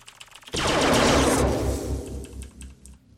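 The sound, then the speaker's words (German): Shooting sound effects in a Space Invaders-style arcade video game, a sudden loud, noisy blast that slowly fades, overlaid with rapid, repeated low pulsing shots. “Ey, nicht so oft schießen. Naja. Du verlierst Punkte.”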